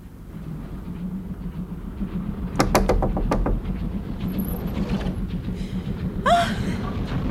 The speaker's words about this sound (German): Ich ging zurück und klopfte an die Tür meiner Freundin.